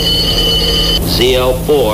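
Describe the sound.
A telephone rings inside a trailer truck cab in a vintage advertisement, a steady high ring lasting about a second, followed by someone starting to speak.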